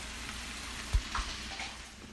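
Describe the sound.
Meat and potatoes fry in a pan with a steady, even sizzle throughout, broken by a couple of brief, soft knocks like a utensil stirring.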